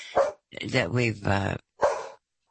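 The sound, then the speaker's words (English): A dog barks in a few sharp bursts, with longer tonal vocal sounds between the barks. “see, the dog even agrees with me.”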